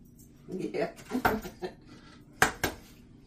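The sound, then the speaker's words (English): Jumbo eggs are cracked into a bowl while making meatballs: a few sharp shell knocks against the bowl, two of them crisp and close together near the end, amid soft kitchen clatter. “Add two eggs. And these are jumbo eggs, so I like them big.”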